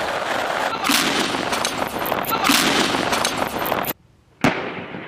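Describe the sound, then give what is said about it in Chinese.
Weapons fire at simulated enemy tanks and bunkers during a high-altitude military live-fire exercise: loud, rolling booms and crackling blasts run continuously, break off into a brief near-silence, then one sharp, powerful blast follows. “对模拟敌坦克、碉堡等目标实施打击。 预备，放！”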